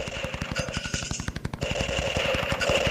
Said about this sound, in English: Hey, my gun just got shot right out of my hand.